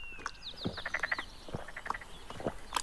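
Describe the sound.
A toad croaking: several short, rasping croaks spaced irregularly, alone with no voices.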